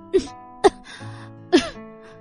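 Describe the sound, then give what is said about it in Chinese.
A woman coughs three short, sharp times while clutching her chest and choking back laughter, each cough a brief, strong burst with quiet gaps between. “呆了一阵的叶朵朵突然捂着胸口咳了起来。她实在是想笑，又不敢笑，最后憋得咳嗽。”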